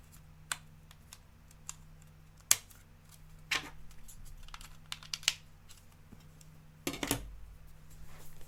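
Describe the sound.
Faint crinkling and tapping as a Lego set's sticker sheet is handled, with scattered soft clicks and rustles and a few sharper ticks over a low steady hum. No voices.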